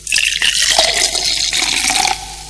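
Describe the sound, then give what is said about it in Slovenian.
A cold fizzy drink being poured, bubbling and fizzing: a loud, steady rush of hissing liquid runs for about two seconds, then cuts off and leaves a faint tail. “Zanesljivo osvežilo so hladni mehurčki na valovih Radia Seraka”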